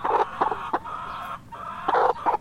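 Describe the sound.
Hens cluck in a chicken coop with two doors, giving many short, bright, throaty clucks in uneven bursts with one longer drawn-out call in the middle. The clucking is fairly loud and there is no talk.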